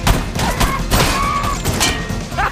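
Video game gunfire: a few sharp shots crack out at irregular intervals over a steady, dense bed of in-game noise.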